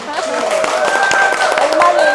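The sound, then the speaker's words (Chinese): Audience clapping to welcome the evening's guest of honour, a pastor. Many distinct claps form a loud, steady patter with a sustained voice over it. “我们一起鼓掌欢迎。”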